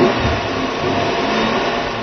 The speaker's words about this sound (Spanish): Vamos a arrancar primero el coche